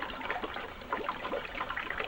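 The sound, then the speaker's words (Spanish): Clear liquid squirts from a dropper into a test tube nearly full of white liquid, heard as faint, wet trickling and dribbling with a few small splashy bursts and no talking. “Coge un cuentagotas y le añade tres chorritos de líquido transparente.”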